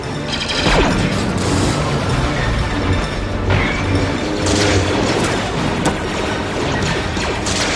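Loud, continuous gunfire in a sci-fi clone-trooper battle video game, a dense barrage of shots mixed with booms and crashes that carries on without pause.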